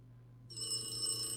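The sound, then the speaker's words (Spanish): A telephone ringing, a steady high-pitched electric bell trill that starts after about half a second and continues unbroken, fairly faint over a low hum. “contesta ese teléfono”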